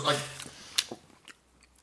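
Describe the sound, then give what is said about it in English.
Someone chews and swallows a bite of pizza close up, with a few crisp, crunchy bites that then fade to softer, quieter mouth sounds; a voice is briefly heard at the start. “Yeah, that piece of pizza you just swallowed is going to be the most disgusting part of the podcast.”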